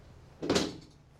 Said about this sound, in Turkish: Kapıyı kapattı.